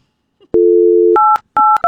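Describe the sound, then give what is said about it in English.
A telephone keypad is dialed angrily. A steady tone plays first, then three short, loud, clipped beeps follow in quick succession as the buttons are jabbed. “can y'all tell he's angry dialing? I don't know if you can hear the aggression in the buttons.”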